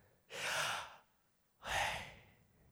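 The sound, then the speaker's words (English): Two deep, breathy inhalations as a group is led in breathing in together during a sermon. Each loud rush lasts under a second, with a quiet pause between them and no talk. “breathe in, everybody, like, breathe in real quick with me. Did you hear it?”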